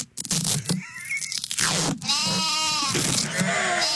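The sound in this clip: Lambs bleating in a few loud, wavering, nasal calls that overlap and run close together.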